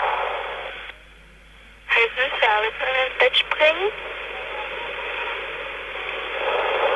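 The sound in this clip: Telephone line noise: a steady, band-limited hiss that cuts out briefly and returns. In the middle, a short stretch of a voice comes through the line before the hiss resumes on its own.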